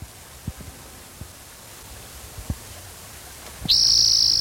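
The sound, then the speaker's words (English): A spotted toad's call starts abruptly as a loud, sustained shrill tone that holds to the end, preceded by steady hiss and a few faint low taps. “There's spotted toad number three.”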